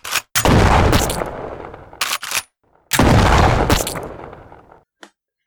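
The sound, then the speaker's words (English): Video game gunfire aimed at a pumpkin-headed enemy: loud, rapid bursts of shooting in several sustained volleys separated by short pauses, ending with one brief final shot. “Okay, well, don't shoot him in the chest. Shoot him in the pumpkin head. Bigger target, right?”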